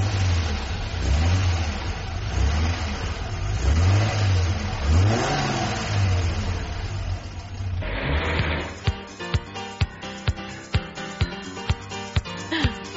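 A car engine revs again and again, its pitch climbing and dropping in several smooth swells over a low running drone. The revving then cuts to a quick run of sharp, evenly spaced clicks.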